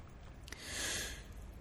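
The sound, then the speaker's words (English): A single soft, slow inhale through the nose during a guided breathing exercise, faint and airy, swelling and fading within about a second amid quiet background hiss. “We begin with the breath of life, celebrating life itself by simply breathing.”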